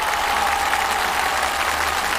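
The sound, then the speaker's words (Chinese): Dense, steady applause from an audience welcoming young folk singers of a folk-song training camp onstage, loud and sustained without a break for the whole stretch. “那在今天节目开始之前，首先让我们用最热烈的掌声欢迎原声天籁民歌研习营的青年歌手们”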